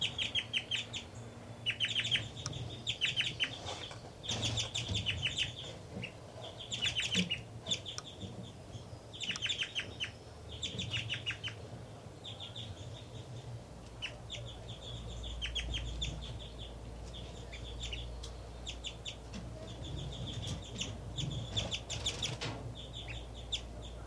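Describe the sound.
A female songbird sings and calls while feeding her nestlings at the nest. Bright, high chirps and short song phrases repeat many times at a steady, busy pace over a constant outdoor background.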